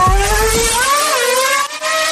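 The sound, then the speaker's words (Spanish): A car engine revs loudly as the accelerator is pressed in first gear: its whine climbs in pitch, then holds steady, while a low rumble at the start drops away. “Ponemos la primera velocidad. Pisamos el acelerador.”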